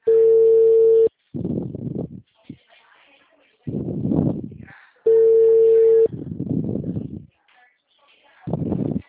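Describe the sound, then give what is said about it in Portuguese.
Telephone ringback tone on an outgoing call: a steady mid-pitched tone sounds twice, each about a second long and separated by a few seconds, with murmuring voices in the gaps. “Vou fazer uma ligação, tá, gente?”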